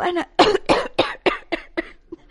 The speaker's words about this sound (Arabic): وأنا من كثرة هذا الانشغال تفاجئني أحيانا نوبات السعال